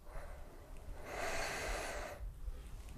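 A deep breath in, taken during a group prayer: one slow, soft inhalation of about a second, an airy hiss that swells and then fades.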